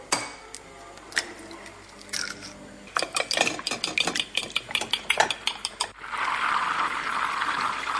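Eggs being cracked and beaten in a bowl for a three-part breading for carp at a Christmas Eve dinner. A quieter opening gives way to many rapid clinking taps, then a steady rushing whisking sound.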